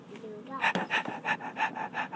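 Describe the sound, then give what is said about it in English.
Rapid, rhythmic panting from a large husky dog that has just run in: a quick series of short, breathy huffs at a steady pace. “It's a large husky dog. It's run in.”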